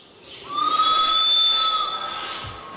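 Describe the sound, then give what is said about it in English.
A harmonica played by an orangutan, fastened to the wall of her enclosure, sounds one long steady reedy note held for about two seconds over a soft airy hiss. “Flinkman ended up fastening a harmonica to a wall in Shanti's enclosure, and Shanti would play it. It's not usually a long ditty, but it always ends in this really big sort of fanfare at the end, this big blowout.”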